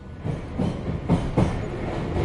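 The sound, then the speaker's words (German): A U6 subway train rides along the tracks with a steady low rumble, punctuated by two louder clacks of the wheels near the middle. “Am nächsten Tag fährt die Klasse mit der U6 zur neuen Donau.”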